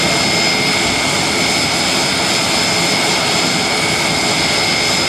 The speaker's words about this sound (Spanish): Así sonaba ese instante en el que el avión del Ejército del Aire aterrizaba en Madrid con uno de esos papamóviles.